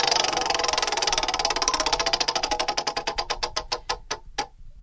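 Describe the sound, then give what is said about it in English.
A spinning prize wheel ticking: rapid, loud clicks that gradually slow and spread apart as the wheel loses speed, ending in a few last separate ticks before it stops. “Let's spin the wheel.”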